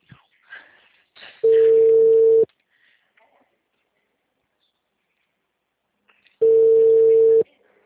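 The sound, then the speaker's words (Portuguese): Ringback tone of an outgoing telephone call to a client: two long, steady, identical beeps, each about a second, separated by several seconds of silence, with brief faint voices at the start. “Vamos ver se eu tô ligando pros clientes aqui.”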